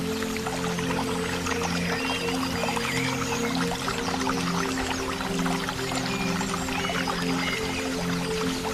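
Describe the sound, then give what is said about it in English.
A waterfall cascades into a pond in a steady, unbroken rush of water noise, with a low droning hum running beneath it and no voices. “Listen to the therapeutic sounds and how refreshing it is as you tune in to the cascading waterfall at the pond.”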